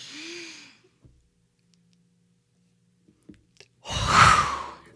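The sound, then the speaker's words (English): A group breathing out as fast as possible after holding a breath: a soft breath at the start, then near silence, then one loud, rushing burst of air near the end. “we're all just going to like as fast as we can get all the air out”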